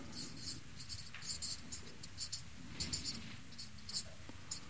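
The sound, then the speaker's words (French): Faint scratching of a green pen writing on paper, many short uneven strokes in quick succession, with soft gaps between bursts. “Je l'écris en vert parce que c'est un peu particulier.”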